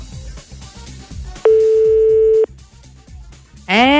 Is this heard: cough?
no